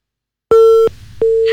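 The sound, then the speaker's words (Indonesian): A telephone busy tone after a call disconnects: two steady, mid-pitched beeps separated by a short gap, loud and alone, the second cut off at the end. “mendengar teleponnya terputus ya”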